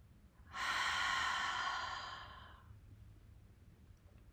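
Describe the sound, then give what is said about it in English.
A single slow exhale through the open mouth during a guided breathing exercise, a soft, breathy rush that swells quickly, then tapers and fades over about two seconds, alone. “Taking in that long breath in, pause at the top. And then slowly exhaling all of the air out of the mouth.”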